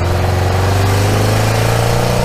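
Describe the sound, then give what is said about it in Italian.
A van engine running as the accelerator is pressed gives a loud, steady, low droning hum with buzzing harmonics that holds throughout, with no voices. “Ti andrebbe di provare a guidare il furgone?» gli domanda. A Gilles non pare vero. Certo che gli va. Sale al posto di guida, impugna il volante, preme l'acceleratore.”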